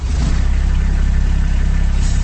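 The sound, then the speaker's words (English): A Kubota RTV diesel utility vehicle's engine runs at a steady idle, a loud, even, throbbing low rumble heard alone. “That's the sound of a Kubota RTV utility vehicle.”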